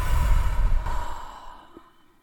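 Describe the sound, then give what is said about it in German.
A deep breath taken during a guided breathing exercise, in through the nose and out through the mouth. One long, airy exhale starts fuller and slowly fades into quiet. “Atme durch die Nase ein und durch den Mund aus.”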